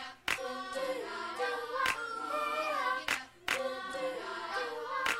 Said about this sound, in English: I can clap it.